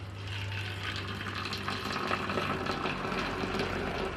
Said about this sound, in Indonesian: Masukkan seperti ini, terus ini air panas. Tadi aku ngambilnya tuh di dispenser di sana tuh.